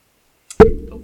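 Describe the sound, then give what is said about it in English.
A hand strikes a microphone in one hard, booming thump with a heavy low end, preceded by a faint tap and followed by a short decaying rumble. “Smashed the microphone there. I was getting too excited there, so I just hit the microphone.”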